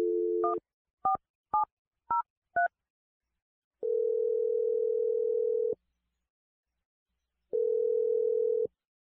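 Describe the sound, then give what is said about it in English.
A telephone number is dialed: five short touch-tone beeps sound in a quick, uneven sequence. Two long, steady, even-pitched tones follow, separated by a pause, with no talking. “We're going to dial his number.”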